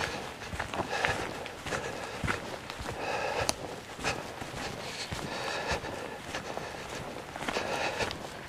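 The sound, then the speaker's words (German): Footsteps walking back through branches: soft crunching and crackling steps mixed with rustling twigs, quiet and uneven in rhythm. “Ich gehe wieder ein Stück zurück. Durch das Geäst.”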